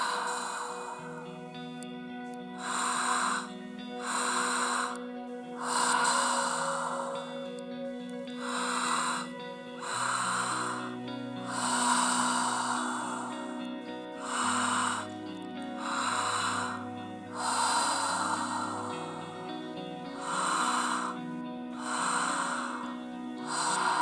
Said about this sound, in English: inhale, exhale. Good. Inhale, inhale, exhale.